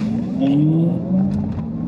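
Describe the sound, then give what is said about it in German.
Car engine revving hard while accelerating, its pitch climbing, then dipping briefly at the shift into second gear before rising again, loud and with no voices. “Da war der zweite Gang, hast du gemerkt?”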